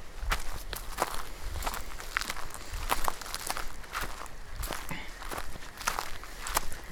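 Footsteps crunching on dry snow on steep volcanic rock in the Wallowa Mountains, a steady walking rhythm of many crisp, gritty steps with no talking.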